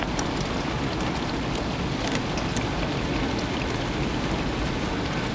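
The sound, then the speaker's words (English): Rain patters steadily on a car windscreen, a dense, even hiss sprinkled with tiny drop taps, continuous and unchanging throughout. “He looks miserably through the rain-spattered windscreen.”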